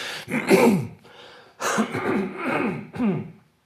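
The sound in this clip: Throat clearing in a spoken talk: two rough, fairly loud bursts of gravelly, voiced rasping with short pauses between them.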